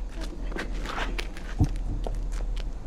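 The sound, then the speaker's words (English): Footsteps climb stone steps up to a stage as a series of soft, faint treads, with one heavier thud partway through. “Peacekeepers escort Katniss to the stage. She mounts the stone steps toward the beckoning MC, who guides her to the microphone.”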